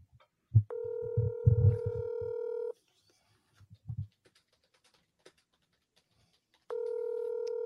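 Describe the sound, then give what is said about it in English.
A mobile phone rings with a steady electronic tone rich in overtones, sounding twice with a quiet gap in between that holds only a few soft knocks. “Why is my mother's cell phone ringing?”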